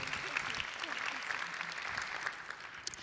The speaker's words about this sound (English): Please welcome him.